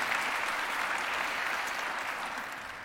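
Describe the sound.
Audience applause welcomes guests at JCBC: a steady wash of clapping from many hands, fairly soft and continuous, tapering off toward the end.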